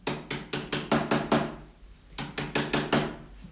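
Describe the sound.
Knocking on a door: a rapid run of loud, hard knocks, a short pause, then a second quicker run of knocks, with no voices.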